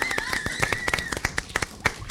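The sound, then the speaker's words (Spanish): Applause from a fifth-grade school class from Colegio Mariano Acosta, many sharp, uneven individual claps, fairly faint and loose in rhythm rather than a dense roar. “Ahí aplausos está. Reales, no grabados.”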